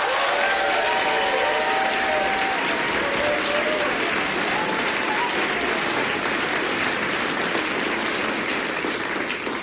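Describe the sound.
An audience applauds to welcome a performer back to the stage at E-Town: loud, dense, continuous clapping mixed with crowd noise that stays strong for the whole stretch.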